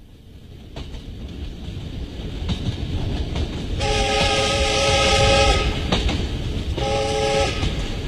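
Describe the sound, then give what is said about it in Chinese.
A southbound passenger train travels with a steady, loud rumble of rolling wheels, and its horn sounds twice in long, high tones over the noise. “三天以后，八零三、沈西、梁达等一行押着于昌寿乘上南去的列车奔赴云南。”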